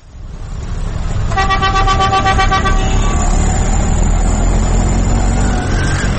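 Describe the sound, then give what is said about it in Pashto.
Busy road traffic of cars, buses and rickshaws in Peshawar's Khyber Bazaar rumbles continuously and loudly, while a high, piercing vehicle horn blares for about two seconds early on, then fades into fainter tones over the steady roar. “دا د پیښور په خیبر بازار کې د گاډو شور دی چرته چې د ورځې د زرګونو په حساب موټرې بسونه او رکشي زیراځي.”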